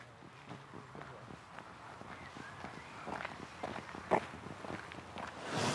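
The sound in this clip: Footsteps walking along a muddy path: faint, irregular steps that grow slightly louder toward the end, over low background noise.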